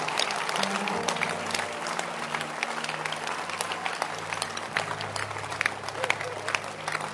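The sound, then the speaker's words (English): Church audience clapping hands during a service, many dense claps running steadily through the whole stretch over sustained low tones. “Clap your hands for Shepherd Lois”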